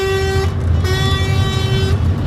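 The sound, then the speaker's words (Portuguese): Car horns honking in a slow-moving protest convoy near Aguiar de Sousa, heading toward the A42: a long, steady horn blast, a short break, then a second sustained blast over low vehicle rumble. “Ana, temos ouvido aqui vários buzinões também, espelho desta revolta.”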